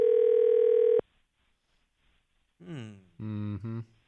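Telephone dial tone as a man dials to call his wife: a steady, loud tone holds for about one second, then cuts off abruptly into silence.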